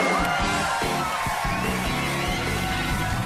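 An audience cheers and whoops to welcome two guests. A dense wash of shouts, yells and applause-like noise stays steady and loud throughout.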